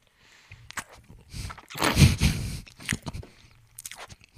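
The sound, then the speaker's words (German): Someone chews a mouthful of cheesecake, making soft, irregular wet clicks and smacks that swell briefly into a denser burst in the middle before thinning out again. “Ich esse Käsekuchen. Moment.”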